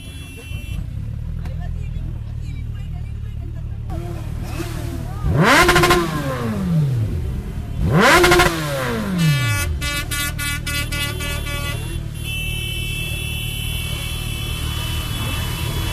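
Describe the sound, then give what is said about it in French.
Motorcycles revving during a protest by angry bikers over vehicle roadworthiness testing: a continuous engine rumble swells into two loud rising-and-falling revs, followed by a few blaring horn blasts over steady traffic noise. “Voilà, donc on vient d'entendre les motards en colère.”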